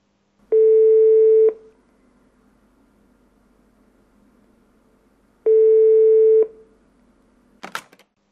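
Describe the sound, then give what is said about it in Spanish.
Telephone line tone after a random number is dialed: two long, steady, loud beeps of about a second each, separated by a long silent pause, then a short burst of clicking noise at the end. “Voy a marcar un número al azar y a reírnos un rato.”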